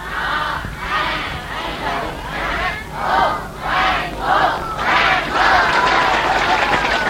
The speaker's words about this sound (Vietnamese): Thì bây giờ thầy đề nghị các con hoan hô trong những người bạn mới vừa đến với các con trong một vài tuần hoặc là trong tuần này. Đề nghị các con hoan hô.